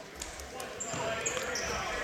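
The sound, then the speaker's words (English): Basketball dribbled on a court during a game, around a free throw: a few quick bounces under a commentator's steady talking. “A couple of dribbles and a splash.”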